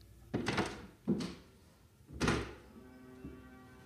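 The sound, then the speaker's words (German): Someone sets aside a sheet of paper and opens a window. Three distinct, quiet thuds and clunks come from the handle and frame, followed by a low steady hum. “legt dieses Blatt beiseite und öffnet ein Fenster.”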